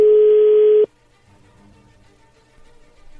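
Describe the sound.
A telephone call being placed: a single steady tone at one pitch lasting under a second, cut off abruptly, followed by near silence with faint low noise.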